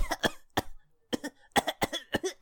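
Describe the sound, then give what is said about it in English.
Harsh coughing and choking comes in many short, raspy bursts, grouped in irregular clusters with brief gaps between them. “I start coughing and choking”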